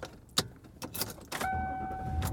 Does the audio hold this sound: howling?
no